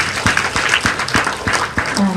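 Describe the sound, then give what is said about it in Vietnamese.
An audience applauds at a parenting talk, a dense, steady patter of many hands clapping that stays loud and even throughout. “Quý vị có vui lòng tặng cho phụ huynh nó một tràng pháo tay không ạ?”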